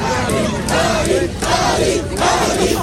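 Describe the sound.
A crowd of high school students cheers and shouts in front of the gates of a general high school, a loud, continuous roar of many voices that swells in several waves.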